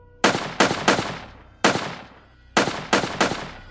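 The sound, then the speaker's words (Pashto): Gunfire cracks out in seven loud, sharp shots with echoing decay, grouped as three quick shots, a single shot, then three more, with no voices over them. “واوره واوره، دا د ډزو آواز دی واورېده؟”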